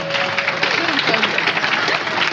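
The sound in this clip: Audience applause for a colleague at a company gathering, a dense wash of clapping with voices and cheering mixed in, steady and fairly loud throughout.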